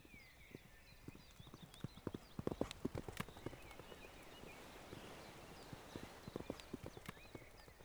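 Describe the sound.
The hooves of wild horses clip-clop as they run and play in an open valley on Sumba Island. Many irregular, fairly faint hoof strikes come in uneven clusters, with no voices.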